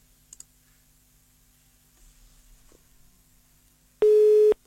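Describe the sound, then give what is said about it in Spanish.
A single loud, steady busy-signal beep sounds after a dropped phone call, following a few faint clicks and quiet line noise. “se cayó la llamada y el diálogo con el doctor Ricardo Araujo”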